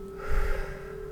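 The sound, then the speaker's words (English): A deep breath drawn in and released during a guided relaxation, one soft breathy swell rising and easing over a steady sustained tone. “Deep breath in and let it go.”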